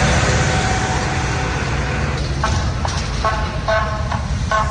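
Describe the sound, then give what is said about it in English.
Rumble of army tanks and armored vehicles rolling through city streets, a steady low continuous roar, with a few short tonal toots or squeals in the second half. “The U.S. Army brought tanks and other armored vehicles into Washington, D.C. last night.”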